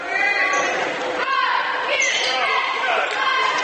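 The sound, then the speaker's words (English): Basketball bounces as a player dribbles down the floor for the Minster Wildcats during a game, steady thumps buried under a loud, continuous crowd din and a talking voice. “Here is Stecholdy dribbling down the floor for the Wildcats of Minster.”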